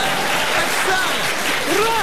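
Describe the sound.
A canned studio applause effect: thick, even clapping at a steady level from start to finish, with a few brief cheering tones over the dense patter.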